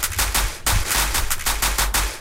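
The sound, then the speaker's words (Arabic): Electronic applause sound effect played on a quiz show after a correct answer, a loud, dense crackle of rapid clapping bursts that runs almost continuously with brief dips. “عايزين نسقف لك سقفة إلكترونية ليك وليها وليا.”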